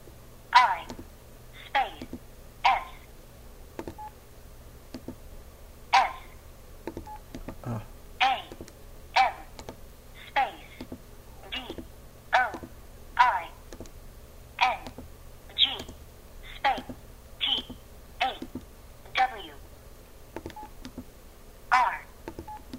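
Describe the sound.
Mobile phone keypad tones sound while a text message is typed: many short, bright beeps in uneven bursts, with a person talking between them.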